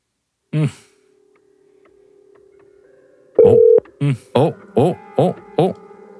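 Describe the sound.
Telephone signalling tones mark an incoming call: a short tone, then a faint steady hum, then a longer tone followed by a run of short, evenly spaced beeps at a steady pitch.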